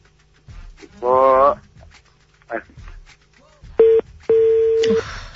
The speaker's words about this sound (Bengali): একটা ফোন আছে please receive the phone